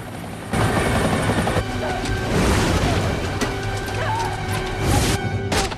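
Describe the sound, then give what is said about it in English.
Helicopter landing in front of a ramshackle outbuilding and two cylindrical towers among fields. Its loud, steady rotor and engine roar cuts in abruptly after half a second and holds throughout. “The chopper lands in front of the ramshackle outbuilding and two cylindrical towers, surrounded by fields.”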